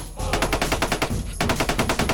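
Rapid gunfire from a big gun: many fast, evenly spaced shots in a loud, continuous rattle, with a brief break midway before the firing resumes.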